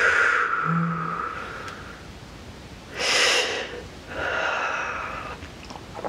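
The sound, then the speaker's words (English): Deep breathing during a guided healing meditation: two long, loud, airy breaths with soft rushing noise, alone and without speech. “One more nice deep breath, opening to clarity.”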